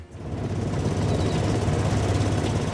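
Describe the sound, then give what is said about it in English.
Steady low engine rumble from a vehicle driving past corn and soybean fields on a farm in southeastern Nebraska, a continuous droning hum with no talk over it. “is driving past fields of corn and soybeans on his farm in southeastern Nebraska.”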